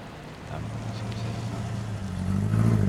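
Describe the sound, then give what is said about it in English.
A car sweeps past outside a cafe, its low engine rumble running steadily and swelling louder toward the end. “A car sweeps past the cafe”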